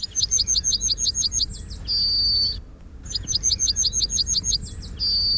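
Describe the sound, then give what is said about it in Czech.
A British yellowhammer sings two phrases, each a quick run of repeated high chirps ending in a long, drawn-out high note. A short pause separates the phrases, and no voices are heard. “A nakonec, protože jsem si říkal, že bychom mohli opustit hranice naší republiky a podíváme se do Británie, jak zpívá britský strnad.”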